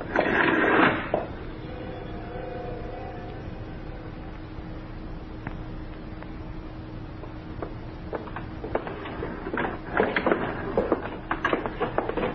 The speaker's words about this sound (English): Here's the elevator now.